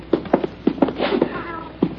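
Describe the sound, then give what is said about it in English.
A black cat meows in a basement: several short, moderately loud mews spaced unevenly, each a brief tonal cry with a slight whine, and quieter shuffling between them. “Here's your cat.”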